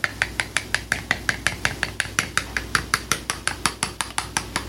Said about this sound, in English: And it helps if you stir the raspberry jam a little bit to begin with.